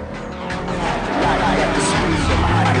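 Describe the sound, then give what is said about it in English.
Car engines roar as a convoy of cars drives through a city, a thick, steady rumble with tire noise that grows louder partway through. “Everyone to cars, then they travel in convoy through the city.”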